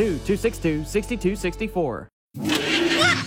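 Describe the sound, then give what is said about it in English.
An old clunker car's engine lets out a loud, broad, rough roar for about a second after a brief pause that follows a voice. “What is that? It sounds like a monster. Just my car. It's an old clunker.”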